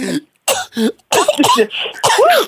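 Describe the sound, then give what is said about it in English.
A voice imitating coughing: several loud, throaty hacks and throat-clearing bursts in quick succession, with short gaps between them. “that's like the minister about to call everybody to the altar and just start coughing”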